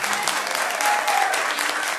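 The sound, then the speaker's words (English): Crowd clapping in city council chambers as the mayor enters: brisk, dense applause from many hands, steady and fairly loud throughout with no pause. “Much of the crowd clapped and some yelled, "Thank you."”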